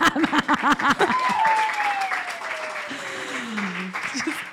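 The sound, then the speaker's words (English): Audience clapping at a live comedy show, a short diffuse burst of applause with people talking over it and a sliding whistle-like tone. “One clap.”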